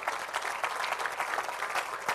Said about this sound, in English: Can you give one more good clap on?